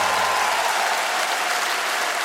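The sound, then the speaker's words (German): Applause from a crowd: a dense, steady wash of clapping that holds at an even loudness throughout, with no voices standing out. “An der Stelle einen großen Applaus an meine Rechtsanwältin Julia Betzenberger.”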